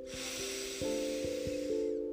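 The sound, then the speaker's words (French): A deep inhalation through the nose: a steady, airy hiss lasting about two seconds that thins out at the end, over soft sustained tones. “Vous pourrez prendre une grande inspiration par le nez”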